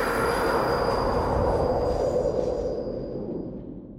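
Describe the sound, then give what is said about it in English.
Loud roar of a New York subway train approaching, at well over 100 decibels, with a steady high wheel squeal riding over a broad rumbling wash that eases slightly toward the end. “everybody just sort of like stands there and endures the sound of the subway approaching, which it's well over 100 decibels”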